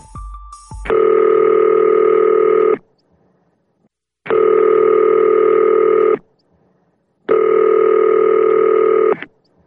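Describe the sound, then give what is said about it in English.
A telephone rings before a voicemail greeting: three long, steady, even ring tones separated by pauses of silence, preceded by a brief beep. “You have reached the Right Time voicemail.”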